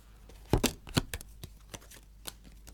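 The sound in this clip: Playing cards being dealt for a card game: many quick, light snaps and flicks, clustered and louder at first, then sparser and fainter.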